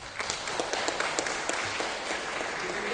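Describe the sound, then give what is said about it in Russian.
Applause from an audience during a formal address about a regional senator: dense, steady clapping sustained evenly throughout, with no voices. “Аплодисменты.”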